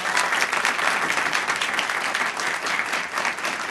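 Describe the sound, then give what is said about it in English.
A studio audience in Washington applauds: an even, continuous wash of many hands clapping holds steady throughout, with only slight swells in level and no voices rising above it. “And as you can hear, we have an audience with us here in Studio 4A”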